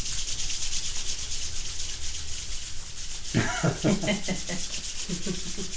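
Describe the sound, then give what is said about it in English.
Hands rubbing briskly together make a continuous, dry, hissing friction sound throughout. Short vocal sounds join in during the second half. “if you rub your hands together like this”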